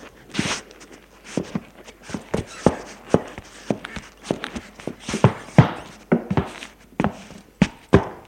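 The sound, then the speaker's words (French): Footsteps sound as someone leaves a bedroom and walks along a corridor, with many distinct thuds at an uneven pace, some louder than others, and no talking. “Il sort de la chambre. Longe un couloir.”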